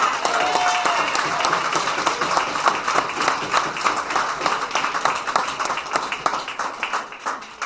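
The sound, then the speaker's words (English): An audience applauds the members who organised the event with dense, steady clapping from many hands, holding strong throughout and easing slightly toward the end. “I want to thank Latin Flavor and the members for putting on a great event. Great event. See, we enjoy the fruits, but we don't know the work that goes behind the scenes. So let's give them a big hand.”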